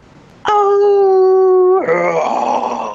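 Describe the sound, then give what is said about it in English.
A human voice imitates an animal howl heard on a mountain and first taken for a coyote: a loud, steady, sustained howling tone that suddenly drops into a lower, rougher growl-like sound. “But the way it finished off this, when it let out this howl, whatever growl, it was kind of like a,”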